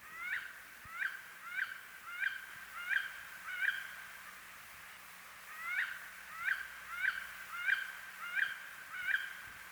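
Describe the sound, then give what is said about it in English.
Female wood duck crying in flight through trees, giving sharp, squealing calls repeated at an even pace in two runs of about six each, with a short gap between them, clear over a quiet background. “And a female wood duck cries as it hurtles through the trees.”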